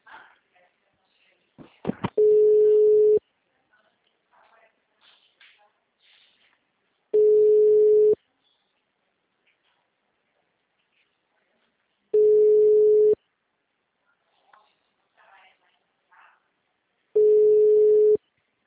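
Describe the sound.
Telephone ringback tones before a call is answered: four loud one-second bursts at a steady pitch, spaced about five seconds apart, with faint clicks and scattered noises in the gaps.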